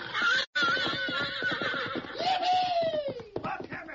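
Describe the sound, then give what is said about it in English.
A fiery red stallion, blindfolded and bridled, whinnies shrilly as he is turned loose. His high cries are layered over a dense, busy clatter of thumps, and one drawn-out neigh slides downward near the end. “two cowhands who'd finally put a saddle on a fiery red stallion”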